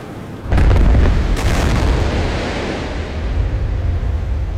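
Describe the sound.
Depth charges fired from a warship during drills: a sudden loud, heavy blast that becomes a deep, sustained roar with a churning, surf-like rumble. The roar slowly eases off over several seconds.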